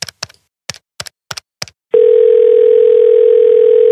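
Several short touch-tone beeps dial a telephone number in quick, uneven succession, followed by a loud, steady, unbroken tone that holds to the end.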